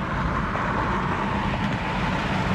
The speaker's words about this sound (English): where he's driving down the interstate.